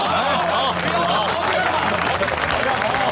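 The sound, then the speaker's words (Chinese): Audience applause for a businessman's generous act, a dense, steady patter of clapping with voices calling out over it. “大家为李老板的慷慨之举鼓掌好不好啊？”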